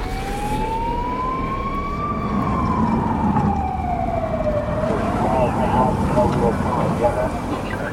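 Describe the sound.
Police siren as officers arrive late in the evening at a small house that becomes a murder scene: a loud wail that rises slowly and then falls, over a steady rumble. A voice speaks throughout.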